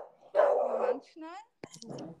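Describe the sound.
A guard dog barks: a few short, rough barks and a higher yelp, fairly faint and separated by brief pauses.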